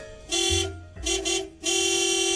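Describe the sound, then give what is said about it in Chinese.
Car horn honking in a few blasts: short bright bursts followed by one long sustained honk, steady in pitch and fairly loud, with no talk. “唔讲啦，唔讲啦，你都听到噶啦，我俾人 boot 啦，我快啲洗翻架车出去先”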